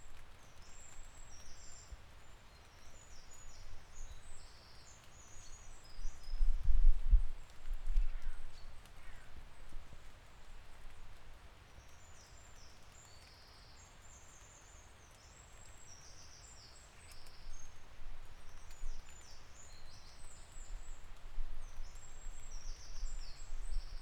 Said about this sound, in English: This time it's the sound of early morning birdsong on Wasvale Pike near Ambleside in the Lake District.